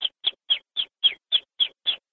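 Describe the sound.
A person imitates the alarm call a bird of prey gives when a predator or walker nears its nest: a steady, evenly spaced series of short, high, clipped squeaks, moderately loud, alone.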